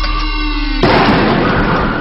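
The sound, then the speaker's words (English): A single gunshot from a .30 caliber bolt-action 700 rifle cuts sharply through a sustained tone. A dense, loud wash of noise lingers after it. “Oh my God, you shot him.”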